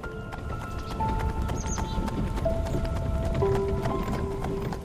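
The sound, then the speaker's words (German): Hooves of a horse, a black horse drawing a carriage up to a house, clip-clop in a steady rhythm over soft sustained tones. “Die Kutsche fährt so dicht wie möglich an das Haus heran.”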